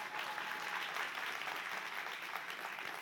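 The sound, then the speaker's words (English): Applause from a church audience at a Sunday morning service during the Thanksgiving holiday season, a dense, steady patter of clapping that holds at an even level from start to finish without a break. “So give yourselves a hand.”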